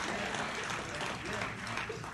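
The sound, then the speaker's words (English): An audience claps during a church sermon. The clapping is steady and dense, with voices mixed into the sound. “Clap your hands, somebody.”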